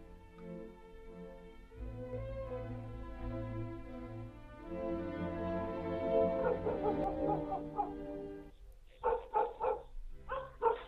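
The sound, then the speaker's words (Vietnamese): A dog barks at night by the porch of a village house: a rapid series of sharp barks near the end, preceded by a sustained tonal background. “Tiếng chó sủa nhấm nhằng đầu hè khiến cho anh Mạnh”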